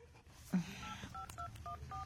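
Touch-tone beeps from a telephone number being dialed: a quick run of a few short, clipped tones at a moderate level, preceded by a soft knock.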